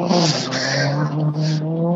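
A rally car driven hard gives a loud, continuous engine roar at high revs. The dense, buzzing tone holds steady for about two seconds, with only a slight momentary dip.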